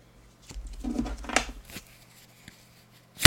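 A playing card is drawn from a deck, with soft rustling and sliding that ends in a crisp snap, followed by a faint tick and an abrupt louder knock.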